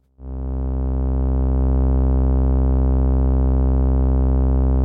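A steady synthesizer tone, sent into the Angle Grinder wave shaper's grind input with its wave shaping sliders all the way down, then through an AI007 Quad VCA mixer. It starts abruptly and holds as a loud, buzzy, harmonic-rich drone at constant pitch.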